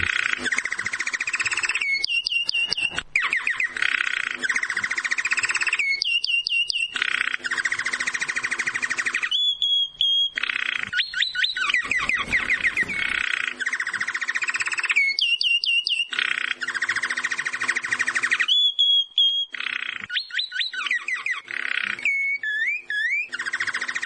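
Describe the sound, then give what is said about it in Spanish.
Goldfinch singing, with long runs of bright twittering trills and chirps broken by short pauses, sustained and fairly loud, with no voices. “Y con el sonido del jilguero,”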